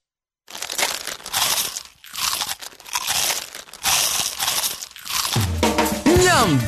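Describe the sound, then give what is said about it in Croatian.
Crisp crunching from bites of a small, crunchy Vanini snack: several loud crackling bursts in an irregular rhythm, separated by short pauses. “Njam! Mali hrskavi zalogaj. Vanini!”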